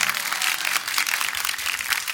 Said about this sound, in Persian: دست قشنگ بزن باریکلا، نشون بده سر حالی.